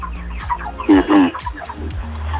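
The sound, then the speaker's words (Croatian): Chickens clucking in a yard or garden: soft, scattered clucks throughout, with a couple of louder, throaty clucks near the middle. “Pozdravite kokice, čuju se u pozadnju.”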